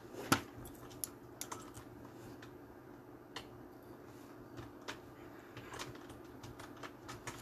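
Faint typing on a computer keyboard: many irregular, light key clicks over a low background hum, with one sharper keystroke near the start standing out above the rest.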